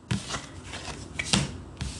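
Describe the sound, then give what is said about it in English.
Cards drawn from a tarot deck make a few brief, crisp papery flicks and rustles, spaced irregularly, with soft handling noise between them. “Let's get one last card out here for you guys.”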